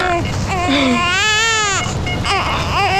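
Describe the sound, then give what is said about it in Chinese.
An infant cries in loud, wavering wails that rise and fall in pitch, broken by short catches of breath, while an adult voice talks soothingly over the crying. “哎呦，哦，不哭了，不哭了，不哭了，不哭了啊！”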